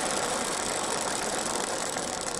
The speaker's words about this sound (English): That's a clay wheel with loose ball, and then here's a urethane, which the sound isn't much different.